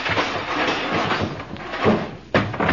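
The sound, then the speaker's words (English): Metallic banging and clattering as a tin-type photo machine at an amusement park is kicked and busted open, a dense rattling din with a couple of sharper crashes toward the end. “Say, what's the idea of busting open this tin-type machine like that, Sonny?”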